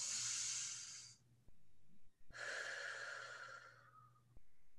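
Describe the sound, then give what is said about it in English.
A group taking a deep breath in on a count of three: two long, airy, hissing breaths with a short pause between them, the second one longer. No talking is heard. “I ask everyone to take a deep breath in, and then I'm going to read the quote. So on the count of three, let's do that.”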